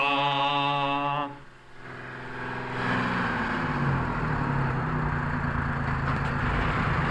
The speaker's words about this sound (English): John, here's the bus.